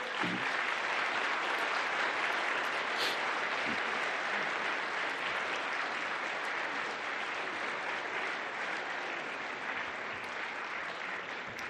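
A church audience applauds in welcome of a group of Ukrainian families. The clapping is dense and steady and carries at an even level from start to finish.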